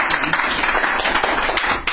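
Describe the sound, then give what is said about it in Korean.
Applause from a gathering of families marking a hundred-day milestone: dense, fairly loud clapping from many hands, steady for about two seconds. “박수요.”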